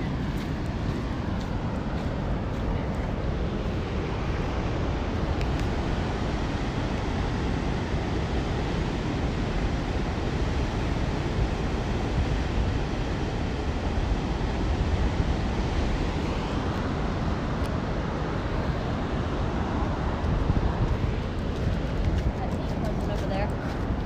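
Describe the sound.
Ocean surf and wind at a shore near a lighthouse, crowded with tourists and kids: a continuous, loud roar of breaking waves mixed with heavy wind buffeting the microphone, unbroken for the whole stretch.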